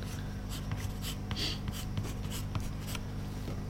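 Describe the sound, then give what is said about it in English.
Pencil drawing on paper: many quiet, scratchy strokes in an irregular rhythm over a steady low hum, with no talk. “He's drawing it upside down.”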